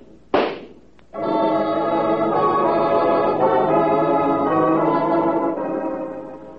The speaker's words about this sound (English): And so Elsie used my gun to send 2 bullets into Marlene.